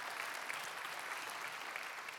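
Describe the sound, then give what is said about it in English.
Applause from an on-site audience at a church worship service, welcoming online viewers: steady, even clapping that continues throughout at a fairly faint level. “So if you are here on site, would you put your hands together and welcome in our online family here today?”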